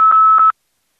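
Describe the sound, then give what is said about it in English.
A steady, high electronic phone tone from a redial, about half a second long with two brief dips, cutting off abruptly into silence. “They picked it up and hit it redial on their phone or something.”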